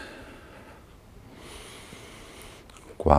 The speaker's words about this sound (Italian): inspiro ed espirando vado in fuori. Inspiro e espiro.